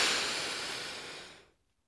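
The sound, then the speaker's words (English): A patient draws a deep breath during a chest examination. It is a soft, airy hiss that starts at its strongest and gradually fades away over about a second and a half, leaving near silence. “I'm going to listen to your chest. Okay, this will be a little cold. Right. Take a deep breath.”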